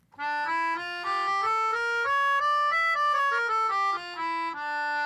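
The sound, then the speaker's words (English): A melodica plays a harmonic minor scale in sustained reedy tones, one note at a time. The line steps upward, moves back down, then climbs again near the end, steady and fairly loud with no voices. “I have a melodica with me so I can play it for you. It sounds like this.”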